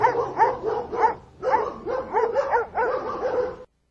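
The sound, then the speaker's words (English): Hounds bark in quick bursts of overlapping, harmonic-rich yelps and barks. Many barks come in a steady rhythm, with a short lull just before midway, then stop abruptly. “Release the hounds.”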